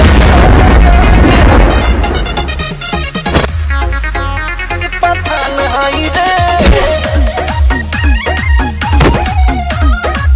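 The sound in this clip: Firecrackers burst in a loud, dense blast at the start, then many sharp pops and booms keep going with music playing throughout.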